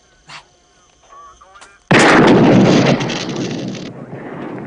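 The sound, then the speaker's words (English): A single loud gunshot fired at a police radio, a sharp blast that rings out in a long, roaring decay after a few faint, quieter sounds. “Shoot the radio.”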